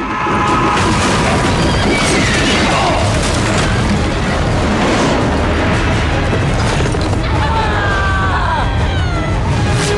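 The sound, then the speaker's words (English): Horses whinny amid a loud, dense crash as a horse-drawn carriage slams into the far side of a broken bridge, booming impacts and clattering wreckage filling the whole stretch without pause. “The horses leap the gap, but the carriage crashes into the other side.”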